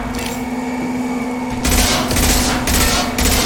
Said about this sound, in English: Alright, now we're in a shooting gallery shooting at the, we're gonna shoot our shotgun. Shooting at that gunship!